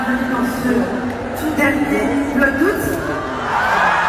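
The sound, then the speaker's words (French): A capacity crowd of about 20,000 cheers at the Accor Arena concert hall in a continuous loud roar. High whoops and screams break out of it now and then. “En délire hier soir dans un accord Arena plein à craquer, venu acclamer l'impératrice de YouTube, Léna Situation.”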